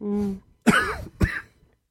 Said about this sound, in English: Sorry, my allergies are still awful. Like, I'm taking double the medicine because the doctor said I could take double the medicine. I still have a cough. My throat still feels swollen.